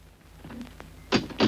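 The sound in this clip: A door being opened at home: two sharp, bright latch or handle knocks a moment apart, set against a low steady hum and faint background rustling.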